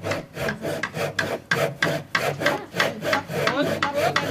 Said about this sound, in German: So, jetzt ist hier schon ein ganzes Stück gesägt.